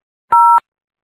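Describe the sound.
A single telephone keypad button tone: one short, steady, dual-pitched beep lasting about a third of a second, heard alone.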